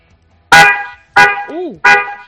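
A car horn sounds three short, loud honks at an even spacing, each a bright, buzzy blast with rich harmonics. A brief voiced sound slips in between the second and third honks.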